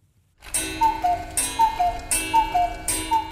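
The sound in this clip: Cuckoo clock ticking in an empty German language institute in Medellín: a steady, regular tick-tock runs throughout, with a repeating pair of falling whistle-like tones sounding between the ticks.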